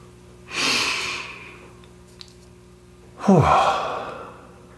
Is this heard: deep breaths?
yes